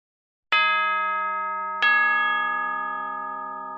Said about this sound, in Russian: Невдалеке громко забил колокол.